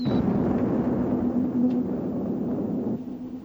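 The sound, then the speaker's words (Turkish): Explosive roar of an unknown spaceship shattered by laser fire, a sustained low rumbling blast with a faint steady tone inside it, easing off slightly toward the end. “Meçhul gemi parçalandı komutanım.”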